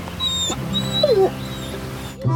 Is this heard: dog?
yes